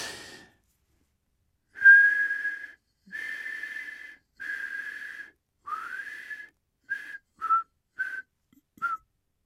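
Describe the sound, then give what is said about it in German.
A person whistles a melody alone: eight notes, the first four longer and sustained at a similar pitch with one sliding upward, then four short, clipped notes. A brief noisy burst comes just before the tune. “Das Einzige, woran ich mich noch nicht erinnern kann, ist die Melodie, die ich im Bus gepfiffen habe. Aha, aha, mir scheint, sie ging so.”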